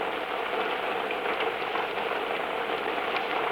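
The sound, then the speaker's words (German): Steady rain heard during a car drive, a continuous even hiss with faint patter and a low engine rumble underneath, with no voices. “Regnet es jetzt? Ja, jetzt regnet es.”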